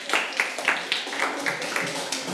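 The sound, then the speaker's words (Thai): Children in a classroom clapping for a classmate: many crisp claps in a steady, even rhythm, moderately loud and continuing throughout. “ปรบมือให้กับเพื่อนหน่อยค่ะเด็กๆปรบมือให้กับเพื่อนหน่อย”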